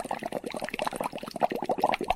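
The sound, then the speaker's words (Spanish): Water heating in a pot toward a boil, giving off a dense stream of small irregular bubbling and gurgling pops that stays steady throughout. “Ahora esperaremos hasta que hierva. Es decir, hasta que aparezcan burbujas.”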